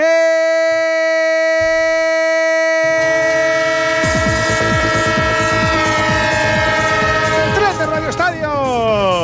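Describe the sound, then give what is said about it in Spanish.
Train horn and rolling railcars in a radio sports-segment jingle: a sustained, loud horn chord is joined midway by rhythmic wheel clatter that runs to the end. “El tren de Onda Cero, claro que sí, el tren del fútbol y del deporte en vivo.”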